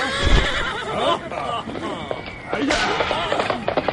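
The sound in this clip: Horses neighing as riders mount, giving a couple of high, wavering whinnies over scattered clip-clopping hooves.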